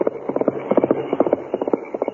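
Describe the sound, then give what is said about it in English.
A horse gallops past at night, ridden in a hurry: many rapid hoofbeats in a steady, driving rhythm of grouped clip-clop strikes, moderately loud and continuous throughout. “It was Parsons, banker Parsons, riding his horse in a hurry.”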